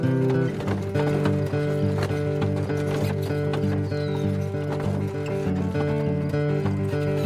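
Horse hooves clip-clop in a steady rhythm as a horse-drawn wagon moves along, heard over sustained tonal sounds that run throughout.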